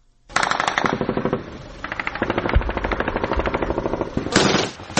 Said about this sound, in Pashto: دا د کوټول سوالې د صد احمد خیلو په سیمه کې د افغان امنیتي ځواکونو او د دایښ وسلوالو ترمن د مخامخ جګړې د سپکو درنو ډزو غګونه دي.